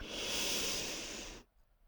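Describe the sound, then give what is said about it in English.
A single deep, slow breath makes a steady airy hiss that holds for over a second and then stops abruptly, leaving near silence. “Take a deep breath”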